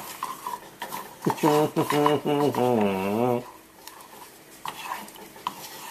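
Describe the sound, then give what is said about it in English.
A spoon stirs chocolate fudge melting with thickened cream in a pot on the heat, making repeated scraping and clinking strokes against the metal, loudest in the first half and fading to softer scrapes. “Just keep stirring until it's melted.”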